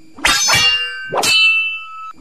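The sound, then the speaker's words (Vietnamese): Three sharp metallic clangs of weapons clashing in a fight in tall grass; the first two come close together and the third rings on with a long, high, bright tone before a faint final tap. “Bỗng nhiên ở góc phía bắc loáng thoáng nghe có tiếng binh đao giao đấu truyền lại.”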